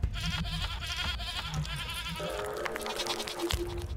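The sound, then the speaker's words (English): Goat bleats come through a radio, a string of loud, reedy, harmonic cries that run almost without pause, with no talk over them. “I want the goat to come back. Maybe if I change the frequency on the radio, it'll change to something else somewhere in the house.”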